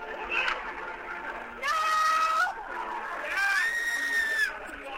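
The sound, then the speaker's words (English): People yell and scream at a live show, with two long, sustained high screams standing out over a rougher crowd background, each held for about a second before dropping away. “I'm going to play another clip, which is from, it's a sound of me yelling no and you screaming.”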